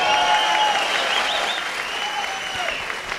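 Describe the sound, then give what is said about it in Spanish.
An audience at a live comedy show applauds, with steady, even clapping that holds at a fairly constant level from start to finish. “¡Le damos un aplauso, cariñoso!”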